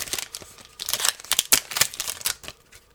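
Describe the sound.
A Topps Chrome Platinum trading card wax pack is ripped open with crinkly tearing. A string of sharp, crackling rips and rustles grows loudest in the middle, then fades out.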